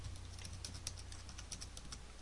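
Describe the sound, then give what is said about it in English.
Keystrokes on a computer keyboard as a password is entered to encrypt a drive: many soft, quick clicks at a steady typing pace, faint throughout, with one sharper click at the very end. “I'm just going to type in the word test for this review. Press tab. Password edit. I'll confirm it. Type test again.”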